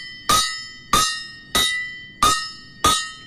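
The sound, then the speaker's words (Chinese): A dog-bark gong, a folk percussion gong from Anhui, is struck five times in an even rhythm. Each bright metallic clang has a slight bend in pitch at the start and then rings out and decays before the next strike. “这个是流传于安徽省一带的乐器，这个叫狗叫锣。”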